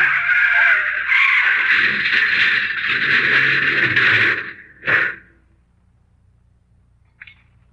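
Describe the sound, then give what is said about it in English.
Radio drama effect of a car tire blowing out and the car crashing: several seconds of harsh, sustained hissing screech, then a sharp burst, followed by near silence and a faint click. “Oh, somebody is. Hit the gas. If we can make that next bend in the road. Ah, there goes a tire.”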